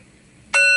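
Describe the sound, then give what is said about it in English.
A meditation bell is rung to begin a session, a sudden bright metallic strike with several ringing overtones that holds loud and steady to the end of the brief clip after a quiet start. “first bell, relax, breathing in, breathing out.”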